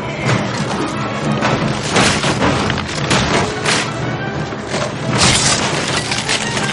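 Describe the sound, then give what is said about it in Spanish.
Heavy wooden door cracking and splintering as it is battered in a fantasy battle scene, with loud, dense booms and sharp cracks sounding continuously throughout. “Todos esperan en guardia mirando la puerta que poco a poco se resquebraja.”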